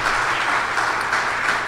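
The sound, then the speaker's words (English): A church audience gives a round of applause to a group from First Presbyterian, steady and fairly loud clapping that carries on evenly throughout. “So I want you to just, if you don't mind clapping too much, give this group of people a huge round of applause”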